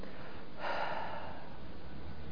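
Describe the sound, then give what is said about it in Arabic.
A single voiceless exhaled breath, a soft airy puff with no vocal tone, rises briefly from quiet and fades within about half a second. “النفس هو هواء خارج من الرئتين عادي، بس ما تأثرش بالوترين الصوتيين دول. يعني انا قاعد اتكلم اهو، انما ممكن اطلع نفس بس”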